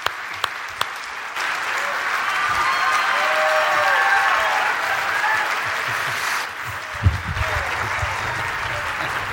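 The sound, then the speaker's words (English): Sustained applause from an audience welcoming a guest speaker, a dense, steady clapping that holds for about nine seconds with some crowd noise mixed in before it thins slightly toward the end. “So put your hands together, give him a great big Portico welcome.”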